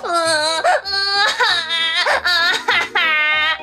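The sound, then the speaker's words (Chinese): Sobbing and crying from a character in a children's story, a lump of fat who breaks down in grief, heard as several loud, high, wavering wails in close succession with no talk over them. “肉肉再也忍不住，伤心大哭了起来。”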